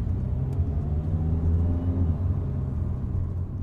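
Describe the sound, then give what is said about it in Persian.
A car engine rumbles low and steady as the driver presses the gas on the road to Orly airport. The deep drone keeps an even level throughout, with no voices. “نفس ماه سیما در آمد و راننده پایش رو روی گاز گذاشت”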